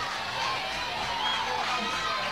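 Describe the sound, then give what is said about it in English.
A baseball crowd lets out an 'ooh' at a line-drive foul ball hit down the left side. It comes through as a low, sustained murmur of many voices without distinct peaks, under a faint talking voice. “A little bit of an ooh from the crowd.”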